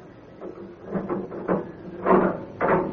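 A prison cell door being opened: several hard, rattling clanks and knocks arrive in separate bursts, growing louder toward the end.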